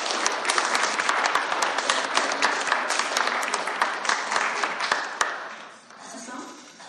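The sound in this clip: Applause from a church audience welcoming a guest speaker, with dense, steady clapping that stays loud for several seconds before thinning and fading out near the end.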